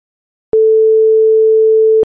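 A telephone tone while a call is being placed: after a brief silence, one steady, unbroken mid-pitched tone holds for about a second and a half, then cuts off abruptly.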